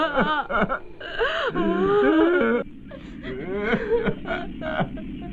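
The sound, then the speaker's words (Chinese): Several people wail and sob loudly over a missing child, their high, quavering cries overlapping in uneven bursts before settling into softer whimpering moans. “他们怎么哭这么厉害？”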